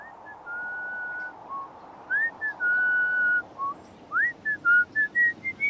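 A person whistles a military march tune alone. Long held notes come first, followed by quicker phrases of short clear notes, several of which slide upward.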